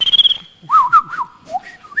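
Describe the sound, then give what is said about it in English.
A person whistles a birdsong-like tune to imitate birds outside a window. A sustained, trilling high note leads into lower, warbling phrases that slide up and down in pitch, loud and clear with no talk. “look, if you whistle, he'll try and match you out the window. And so we were doing,”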